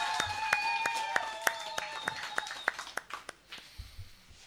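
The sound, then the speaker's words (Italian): Audience applause at a poetry slam as the next performer is called up: a small crowd's scattered, sharp claps that thin out and fade after about three seconds, with a voice heard briefly at the start. “chiamiamo sul palco Sebastiano Mignosa, un applauso”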